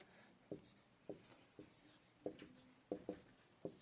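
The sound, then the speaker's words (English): Writing on a board, a series of faint, short scratchy strokes in an uneven rhythm, each a quick scrape with quiet gaps between. “The three types of law I forgot to put in your sheet there, but I'll write these up here.”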